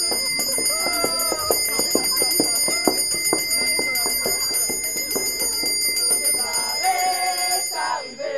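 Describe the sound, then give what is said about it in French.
An electric bell rings continuously in a theatre to mark the end of the interval, a steady shrill tone lasting throughout, with voices underneath it. “On sonne la fin de l'entracte. Dépêchons.”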